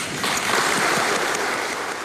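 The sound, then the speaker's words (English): Applause at a funeral service for a 19-year-old son, held in a minster church: a steady, dense wash of clapping from the mourners that holds at an even level throughout, with no voices rising above it. “I'd ask you to join me in giving my beautiful boy 1 minute's round of applause.”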